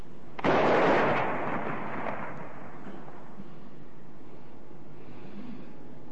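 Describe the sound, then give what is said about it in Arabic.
Imsak cannon fired during Ramadan: one loud, deep boom that bursts out suddenly, then trails into a long, fading rumble. “مدفع الإمساك”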